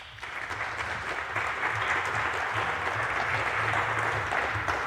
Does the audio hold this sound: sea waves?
no